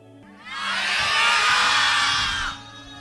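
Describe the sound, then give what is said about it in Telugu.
A church audience shouts joyfully together. The loud, bright roar of many voices swells quickly, holds for about two seconds, then drops away abruptly. “ఎక్కడ మీరు ఒకసారి సంతోషంగా కేకలు వేయండి చూద్దాం”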